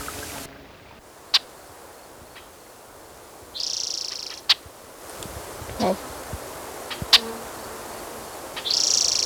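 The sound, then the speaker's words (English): Blackbirds call in short, high, faint bursts, a few spread apart, with scattered soft clicks between them over a quiet background. “There's blackbirds.”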